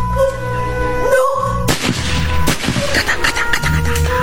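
Gunshots ring out: several sharp, loud cracks follow one another in the second half, over a steady droning background, with a quicker cluster of shots near the end.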